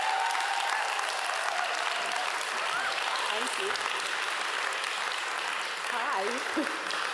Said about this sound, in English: would you please put your hands together to welcome the new Bishop of Stepney